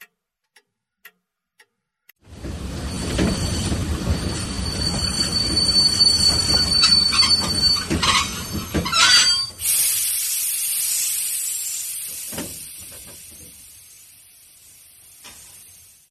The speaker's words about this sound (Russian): Поезд остановился на станции Тунгус с грохотом и звоном.